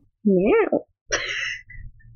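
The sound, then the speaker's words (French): A person imitates a cat's meow with a wavering voice whose pitch rises and falls, followed after a short gap by a brief, breathy vocal burst. “C'était moche. Il va falloir l'assumer, ce miaou là.”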